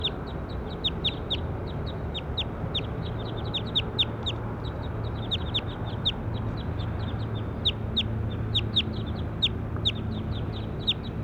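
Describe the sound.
Bird calls: many short, high-pitched chirps repeat steadily and quickly over a constant low rumbling background, with no voices.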